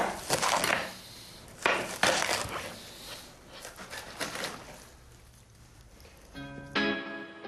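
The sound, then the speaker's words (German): A knife cuts radicchio into strips about a little finger wide. A few crisp, crunchy slicing strokes come in separate bursts with quiet pauses between them. “Und Sie schneiden den Radicchio.”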